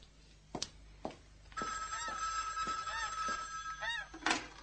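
A telephone on a long line running from a ranch rings in a sustained, faint electric bell tone, with a few soft knocks before it and a sharper thump at the end.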